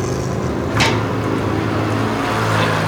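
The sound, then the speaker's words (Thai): A motorcycle passes close by in a busy market, showing as a brief whooshing swell of engine noise near the start over a steady, dense wash of street and vehicle sound. “เนี่ยฮะมอเตอร์ไซค์ลองมือเกือบขาดเมื่อกี้”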